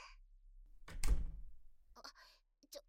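A door thuds shut as a younger childhood friend arrives to visit: one heavy, dull thunk with a low rumbling decay, followed by a few faint, short knocks.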